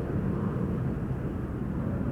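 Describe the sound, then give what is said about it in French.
An airplane landing at an airport gives a steady, broad roar with a deep rumble underneath. The sound stays even in loudness from start to end, and no voices are heard. “Venant de Conakry, Guinée, mon vol atterrit à l'aéroport Charles de Gaulle.”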